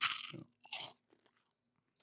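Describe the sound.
Crunching bites into a cinnamon twist snack give a few sharp, crisp bursts close together, then trail off into faint scattered chewing ticks in otherwise quiet surroundings.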